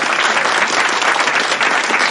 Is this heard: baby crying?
no